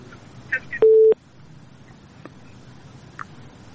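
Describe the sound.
A telephone tone sounds as a listener's call to a radio phone-in drops: one short, steady, mid-pitched beep after a couple of faint clicks, followed by a few soft ticks over low background hiss.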